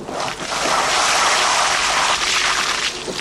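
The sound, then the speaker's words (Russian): Water gushing out of an opened car door onto a man's shoes at a car wash, a dense, steady splashing rush that fills the whole stretch at an even loudness. “Дулли открывает дверцу машины. Из машины ему на ботинки выливается вода.”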